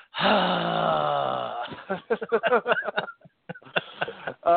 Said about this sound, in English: Maybe I shouldn't groan so much. I do make a lot of mouth noise, but I shouldn't have said that out loud.